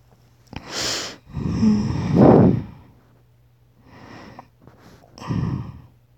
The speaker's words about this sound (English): I breathe softly in your ear and sigh contentedly.